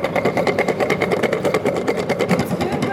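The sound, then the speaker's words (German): Loud, steady mechanical rattling from a brush cleaning machine whose brooms sweep back and forth to brush powder off kirsch-filled sugar-crust sticks. It keeps up a fast, even chatter throughout. “Tabitha Schenker nimmt sie aus dem Puder raus und legt sie auf eine Art Putzmaschine. Die rattert ziemlich laut.”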